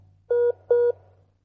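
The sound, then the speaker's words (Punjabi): Two steady electronic beeps of a telephone line tone after a call drops from a network problem. Each beep lasts about a fifth of a second at one even mid pitch, over a faint low hum. “ਤਾਂ ਜੀ ਉਹਨਾਂ ਦੀ ਕੋਈ network problem ਲੱਗਦੀ ਹੈ ਮੈਨੂੰ ਲੱਗਦਾ, ਤਾਂ ਹੀ ਤੇ ਉਹਨਾਂ ਦੇ ਟੈਲੀਫੋਨ ਦਾ ਜਿਹੜਾ ਉਹ ਕਨੈਕਟ ਉਹ ਸਾਡੇ ਤੋਂ ਟੁੱਟ ਚੁੱਕਿਆ।”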